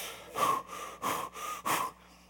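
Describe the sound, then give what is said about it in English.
A voice imitates out-of-breath panting, four heavy, breathy gasps in a quick uneven rhythm, loud and alone, with a faint voiced tone running through each breath. “The angel's like out of breath.”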